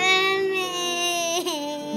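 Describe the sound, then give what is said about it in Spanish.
A voice imitates a little butterfly crying in a children's story, a sustained, tonal wailing sob that holds fairly loud and wobbles briefly near the end. “La mariposita lloró muchísimo.”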